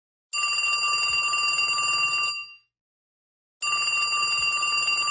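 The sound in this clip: A telephone rings on an outgoing call: two long, steady electronic rings, each about two seconds, separated by a pause of silence.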